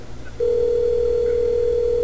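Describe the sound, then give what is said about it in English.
Telephone tone signalling an incoming call: after a short quiet moment, one loud, steady electronic tone begins and holds unbroken to the end over a low background hum. “You better answer it. Your telephone.”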